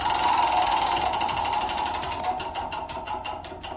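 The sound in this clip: A prize wheel spins, its pointer rattling in a rapid run of clicks that gradually slow and spread apart as the wheel loses speed.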